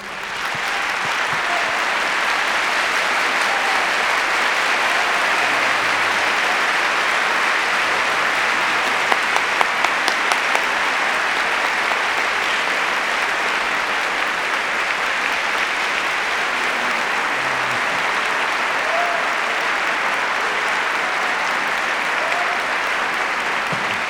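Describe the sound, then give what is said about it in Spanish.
Big audience applause rolls on steadily for about twenty-four seconds, a thick, even wash of many clapping hands at a constant loud level that does not fade. “Yo quiero un aplauso muy grande para este Pocho Pérez.”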